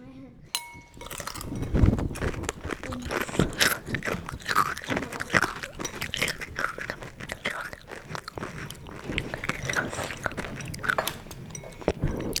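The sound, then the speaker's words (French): Crunchy Frosties cereal is chewed, giving a steady stream of irregular crisp crunches and mastication noises, moderately loud and continuing throughout. “Ils sont très bonnes ces céréales. Si vous goûtez ça, vous allez dire Oh, ils sont bonnes. Ah ouais, ça sont bonnes. Dans la bouche, ça fait un truc croquant, c'est trop bon.”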